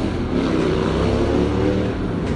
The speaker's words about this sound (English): pardon the motorcycle